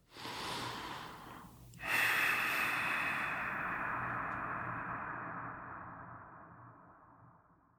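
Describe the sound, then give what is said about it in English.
Slow, deep breathing, heard alone: one soft inhale of roughly a second and a half, then a long, steady, airy exhale that fades gradually over about six seconds. “We begin this journey today. Let's breathe.”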